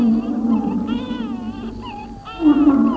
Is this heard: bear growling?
yes

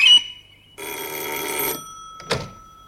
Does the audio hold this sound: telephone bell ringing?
yes

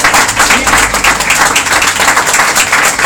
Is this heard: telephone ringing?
no

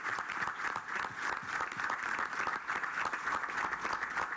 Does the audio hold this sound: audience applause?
yes

